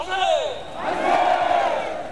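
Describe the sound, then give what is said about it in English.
A crowd of older demonstrators gathered in front of Seoul City Hall, waving South Korean and American flags, shouting together in loud, surging waves of voices. “A few blocks away, in front of Seoul City Hall, an older crowd has gathered. They wave South Korean and American flags and wear T-shirts that read, "Freedom is not free."”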